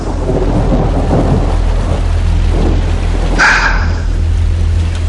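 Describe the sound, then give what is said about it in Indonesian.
Heavy rain pours down in a steady, loud, unbroken hiss of a dense downpour, with no voices. “tanpa diduga, hujan turun cukup deras.”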